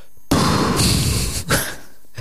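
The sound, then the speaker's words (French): Someone blowing straight into a microphone, giving a loud, breathy rush of wind noise that lasts about a second, then a brief pause and a shorter second puff, with no voices over it. “Je sais pas si on m'entend bien souffler dans le micro.”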